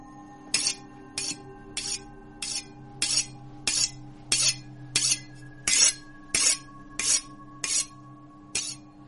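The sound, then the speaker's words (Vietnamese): A sharp knife drawn carefully across a whetstone in many evenly spaced rasping strokes, each a bright scraping swipe in a slow regular rhythm over a faint steady low hum. “Cẩn thận quẹt từng đường dao sắc lẹm lên trên hòn đá mài, tỉ mỉ từng ly từng tí, phát ra những âm thanh rên rít đến rợn người.”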